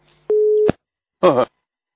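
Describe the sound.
A telephone busy tone sounds after a caller hangs up: a single steady, clear tone burst, followed moments later by a short separate sound.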